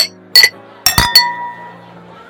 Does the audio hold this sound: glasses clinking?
yes